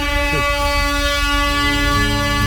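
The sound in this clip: Loud, sustained horn blast used as a radio station jingle, a rich buzzing tone with many stacked harmonics that holds steady from start to finish.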